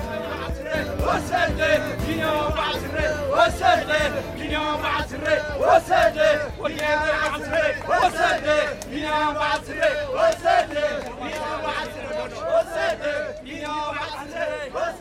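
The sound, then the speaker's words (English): Delighted Eritrean cycling fans cheer at the Tour de France stage finish in Turin, producing a dense, loud roar of shouting and singing voices in pulsing, rhythmic bursts. Whoops rise above the steady crowd noise throughout. “The sound you heard playing us in there, Richard, was the supporters, the delighted supporters, Eritrean fans in the finish in Turin.”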